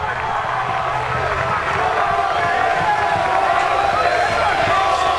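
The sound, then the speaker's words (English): Florida State fans make a steady, loud roar of crowd noise at a baseball game at Truist Field, sustained without breaks, with a voice talking over it. “Tell you what, impressed with the noise that Florida State fans are making here today at Truist Field.”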